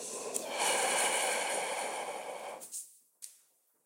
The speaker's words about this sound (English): So take a deep breath in with me And just a nice exhale out of your mouth.